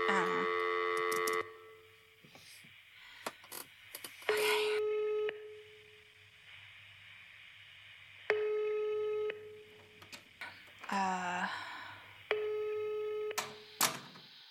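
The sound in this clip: Telephone ringing tones heard while a call is placed: four bursts of a steady electronic ring, evenly spaced with quieter gaps between them, plus occasional clicks and faint sounds.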